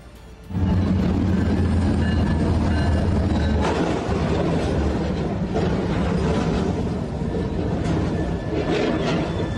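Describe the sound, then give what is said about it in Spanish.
A train hits a trailer stalled on the tracks by a mechanical failure. A loud, dense roar starts abruptly about half a second in and carries on as a heavy rumbling, rattling wash of noise to the end, with no talking. “El tren no pudo detener la marcha y se impactó contra la carga.”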